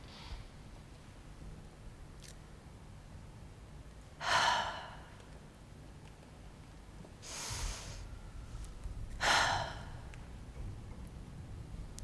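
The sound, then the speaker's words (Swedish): Slow human breathing: three separate airy breaths spaced several seconds apart, each a soft rushing exhale or intake between long quiet stretches, with no speech. “Andetag.”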